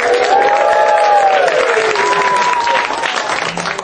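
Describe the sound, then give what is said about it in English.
A live audience applauds at the UCB Theater. Thick, loud clapping runs steadily throughout and eases only slightly at the end. “A live audience is here for my podcast, I Love Movies. Let's hear it for you for coming in.”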